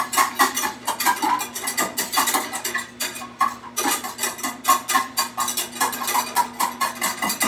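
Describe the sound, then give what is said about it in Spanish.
Garlic is stirred in melting butter in a pan over medium-high heat. A utensil scrapes and clinks against the pan in many quick, rhythmic strokes that continue steadily throughout. “Así, a fuego medio alto, vamos a estar mezclando para que la mantequilla no sepa a ajo.”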